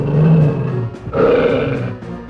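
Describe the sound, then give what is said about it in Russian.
A dog growls from inside a sack, a deep rough roar in two sustained bursts, the first about a second long and the second slightly longer, loud and with no talk. “А собака в мешке как зарычит.”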